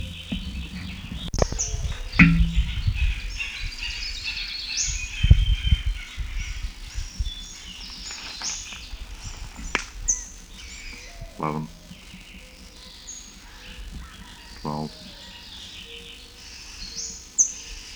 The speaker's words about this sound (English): Still several birds present. These notes are indistinguishable.